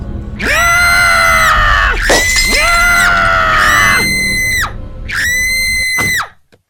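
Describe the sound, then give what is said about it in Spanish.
Loud, high-pitched screaming from several people, with long, sustained cries overlapping in waves before cutting off abruptly at the end. “Sus gritos se pierden con otros gritos.”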